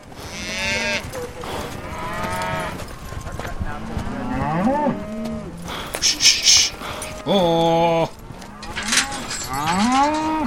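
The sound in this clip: Cattle mooing on a farm while being sorted into pens, with many long, bellowing moos from several animals overlapping and following one another at varied pitches over steady background noise.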